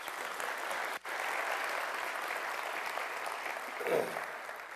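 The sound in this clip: Dense, steady audience applause welcoming a guest speaker at a church service, broad and even throughout, with a brief dropout near the start and a faint voice coming through toward the end.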